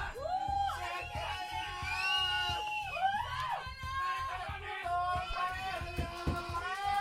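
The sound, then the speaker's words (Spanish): A crowd shouting and whooping at a sonidero dance party: many overlapping yells and high cries that rise and fall, loud and continuous over a steady thumping music beat. “¡Échale un grito!”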